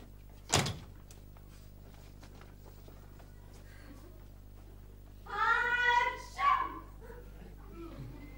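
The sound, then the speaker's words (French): A small cupboard door opening with one sharp knock-like click, then quiet, followed later by a couple of short, high harmonic cries. “on va ouvrir le petit placard. Et qu'est-ce qu'on trouve? Qu'est-ce qu'on trouve dans le petit placard?”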